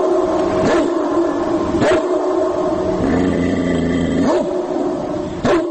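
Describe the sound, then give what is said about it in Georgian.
Recorded dog barking and growling played from an MP3 player through amplifiers, used to scare wild boars off village gardens: a loud, continuous rough growl broken by a few sharp barks. “შეიძინეს ეს MP3 პლეიერები, მასზე ჩაწერილი ძაღლების ყეფა ღრენით.”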